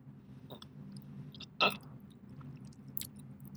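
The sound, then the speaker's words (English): Someone chews and eats food: soft, wet mastication, with one loud crunchy bite in the middle and a few quieter bites around it. “So let me just wash down that delicious food with coffee.”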